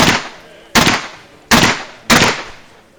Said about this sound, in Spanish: Kurt Gustav Wilkens acaba de disparar con su revólver Colt al teniente coronel Héctor Benigno Varela.